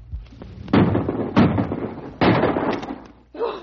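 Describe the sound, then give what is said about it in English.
Rifle shots fired at a charging grizzly bear land as three loud, sharp bangs, each followed by a rough rumbling tail, spaced unevenly across a few seconds. “Now, blast him. Shoot, Corey, shoot.”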